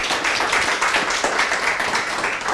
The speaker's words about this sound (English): So let's give her a hand and welcome Nina for driving down.